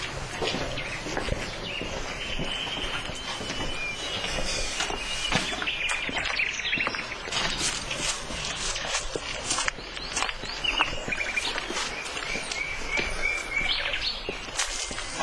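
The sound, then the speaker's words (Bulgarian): Swallows chirping at a nest high up on a church building: many quick, high chirps and twitters, faint and continuous throughout. “А там горе гнездо ли? Да, на лястовички.”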